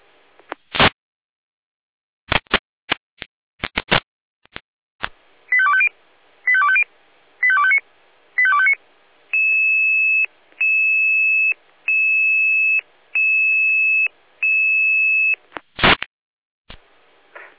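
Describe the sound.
Fire brigade alarm call tones from an electronic alert: clicks, then four short warbling tone bursts, then five long, steady, evenly spaced beeps at one pitch. A final click follows, with no talking.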